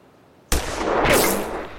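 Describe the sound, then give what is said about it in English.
A rifle shot goes off as one abrupt, loud crack, followed by a noisy tail that swells briefly and then slowly fades. “Now, raise the end up of the rifle just a little bit and put that black sight post right in the middle.”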